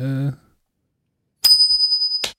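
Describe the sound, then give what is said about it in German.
A small bell rings once with a bright, high, sustained tone that stops abruptly after a brief sounding. A short fragment of voice comes before it, followed by silence. “Die Glöckchen klingeln schon.”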